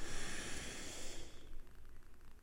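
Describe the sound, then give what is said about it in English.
A slow inhalation through the nose during a guided relaxation breathing exercise, a soft, steady airy hiss that eases slightly toward the end, with no talking. “we're going to breathe in through our nose and hold for a few seconds. Let's breathe in.”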